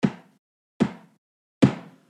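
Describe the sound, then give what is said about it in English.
Knocking on the door of a house: three firm, evenly spaced knocks, each short and dull with a quick decay, quiet and alone with nothing else around them. “as it knocks on another door to a different house”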